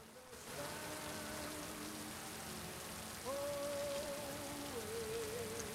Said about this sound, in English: walking across the street in the pouring rain